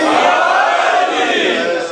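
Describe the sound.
A crowd roars its response to the Naara-e-Haidari chant at a religious gathering, a loud, sustained shout from many voices held for about two seconds before easing off.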